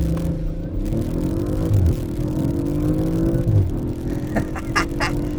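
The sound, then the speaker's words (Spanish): A car engine with a dual exhaust revs loudly, giving a throaty, droning note that swells and dips in pitch, followed by a few sharper bursts near the end. “también tienen un escape dual muy interesante con una nota, híjole, que está increíble. Ojalá lo alcancen a apreciar”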